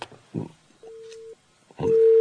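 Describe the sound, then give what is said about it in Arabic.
A busy tone after a phone call is cut off: two steady electronic tones, one lasting about half a second and a second one starting near the end, each preceded by a brief voice sound. “كان في اتصال يا أولاد وفصل”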